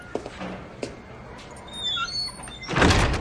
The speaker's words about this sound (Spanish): Stefan forcejea unos instantes con la cerradura y entra en el portal de Sharon.